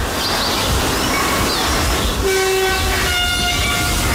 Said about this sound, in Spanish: No hay nadie en el recinto, pero se espera el paso de un tren que está a punto de llegar. Lo sabemos porque ya escuchamos de fondo los avisos sonoros que va emitiendo conforme se acerca a un paso a nivel